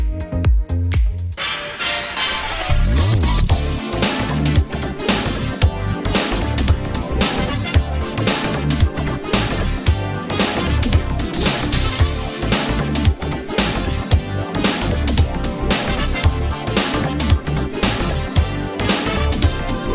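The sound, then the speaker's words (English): Video game music previewed from Sonic Chaos, from an underwater-themed level: after a brief, sparse opening, an upbeat electronic tune plays with a steady driving beat and a busy melody, continuous and loud. “Second preview of Aqua Planet Zone Act 1 from Sonic Chaos”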